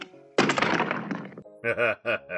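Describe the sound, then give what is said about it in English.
Revolvers laid down on a table during a card game make a heavy clattering thunk about a second long, followed by a short voice. “Lay your guns on the table. There they are.”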